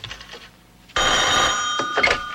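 A telephone bell starts ringing after a quiet first second, a loud, continuous metallic trill that carries on to the end.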